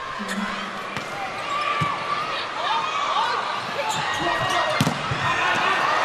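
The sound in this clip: A volleyball is bounced on the court before a serve in a match: a few dull thuds over a steady wash of crowd noise, with voices talking throughout.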